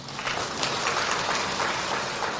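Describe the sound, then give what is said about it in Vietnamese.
Applause from a Buddhist lay gathering at a year-end gift event for the elderly: steady clapping from many people, moderately loud, with a busy, unbroken texture of overlapping claps. “Quý Phật tử cho một tràng pháo tay.”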